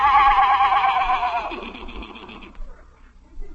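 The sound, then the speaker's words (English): A horse neighs in one loud, wavering, high whinny that trembles and then fades out, followed by a few faint low thumps. “I could have swore I just heard a horse laughing in your bedroom.”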